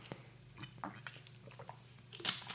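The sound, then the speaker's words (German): Faint mouth sounds of someone drinking Mountain Dew energy drink: a few soft sips, gulps and wet swallowing clicks, with a brief louder slurp near the end. “Prost, ich trinke gerade Mountain Dew.”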